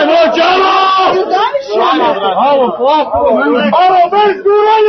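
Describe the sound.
A crowd of football fans roars, shouts and chants as a ticket window opens after a nearly all-night wait for match tickets. Many overlapping voices stay loud and continuous throughout.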